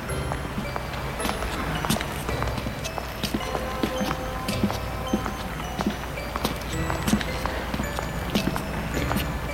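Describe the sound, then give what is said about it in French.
Brisk footsteps of a woman walking, a steady, quick run of sharp, hard steps that continues throughout over a constant low background noise. “Elle essaye de voir s'il n'y a pas un taxi. Elle entend toujours les pas. Elle se retourne.”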